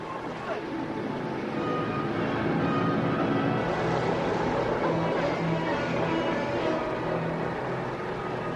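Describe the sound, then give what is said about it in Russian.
Engine noise from an aircraft starting up: a dense, steady roar that swells in the first second and then holds loud and even to the end. “Ну, давай, заводись, крошка. Поехали, ребята.”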